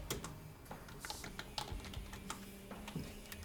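Rapid typing on a computer keyboard while notes are being written: many irregular, crisp clicks and taps follow one another unevenly, with a few louder keystrokes, and no voices.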